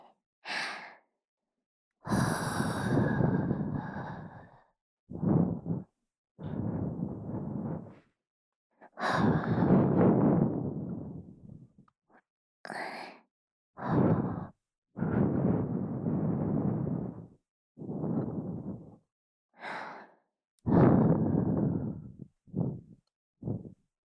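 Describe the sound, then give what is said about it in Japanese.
Gentle breaths are blown into the ear as soft, airy whooshes. Many puffs of varying length come in an irregular rhythm, some long and some brief, with quiet pauses between them and no talk. “このままもう一度お耳をふうふうさせていただきますね。”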